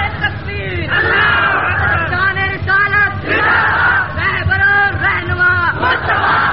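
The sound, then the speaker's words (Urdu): A crowd at a religious gathering chants religious slogans in unison, loud surging phrases of many voices shouted together, repeating in a rhythmic call-like pattern throughout. “نعرہ لگانے میں آپ بہت ماٹھے ہیں، بڑے ڈھیلے ہو نعرہ لگانے”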